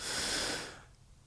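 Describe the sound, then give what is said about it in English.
A single deep breath: a loud, airy rush of air lasting under a second that quickly fades into near silence, with no talk. “slowing your breath down, dropping to one knee, putting your sights on the target focusing your world inside of the scope. Deep breath.”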